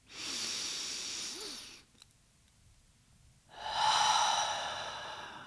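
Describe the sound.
Deep breathing during a breathing exercise: two long, hissing breaths of rushing air separated by a short quiet pause, with no talking.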